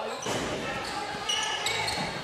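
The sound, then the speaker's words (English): A basketball is dribbled on the court during a game between the Yellow Jackets and their opponent, with repeated soft bounces under a steady wash of crowd noise and voices. “Dribbling around over here”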